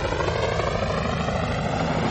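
A departing helicopter carrying a person gives a loud, steady rotor and engine roar with a dense chopping texture. The sound holds level throughout, with no other sounds.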